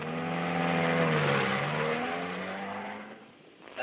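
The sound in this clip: A car driving away, its engine a steady humming drone that dips briefly in pitch midway, then gradually fades before a short burst of noise at the very end.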